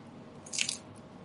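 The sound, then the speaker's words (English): A single crunchy bite into a taco that is not fresh: one short burst of crisp crackling noise that stands out clearly against a quiet, steady background. “Let's taste the taco.”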